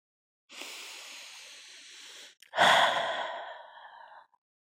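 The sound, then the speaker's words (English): A deep breath in and out: a steady, airy inhale lasting nearly two seconds, a brief pause, then a louder, fuller exhale that starts strongly and slowly fades. “Take a few deep breaths.”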